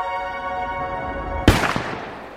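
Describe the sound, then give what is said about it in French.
Gunshots interrupt an actress singing on a theatre stage: a sustained vibrato note is cut by one sharp, loud blast, followed by a few smaller cracks and a fading rumble. “Mais là, un énorme bruit interrompt l'actrice. C'est un coup de feu ? Et puis un autre ?”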